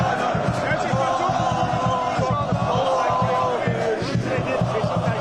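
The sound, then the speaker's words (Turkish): About 3000 football fans in black and white chant rhythmically outside an Istanbul airport as striker Dušan Vlahović arrives, a loud, steady crowd roar carrying repeated chanted phrases with shouting voices throughout. “Yaklaşık 3000 taraftar oradaydı. Vlahović kapıdan çıkar çıkmaz tezahüratlar yükseldi.”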